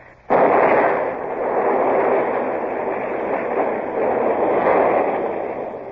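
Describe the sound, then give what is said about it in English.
A gun battery's powder magazine at Lanza explodes with an abrupt, loud burst that turns into a sustained, rumbling roar and slowly eases off over several seconds, with no voices. “They've blown the magazine, sir. That's the end of the battery at Lanza.”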